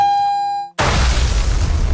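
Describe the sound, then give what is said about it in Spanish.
A bomb thrown and exploding: a steady high tone fades out, then a sudden loud blast bursts in and holds as a dense, heavy rumbling roar to the end. “Es tiran bombas.”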